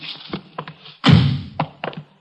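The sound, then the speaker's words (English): A door being opened in a radio drama: one heavy, low thunk with a brief rumbling tail, set among a few softer, short knocks and taps. “Just a minute, I'll get the door here.”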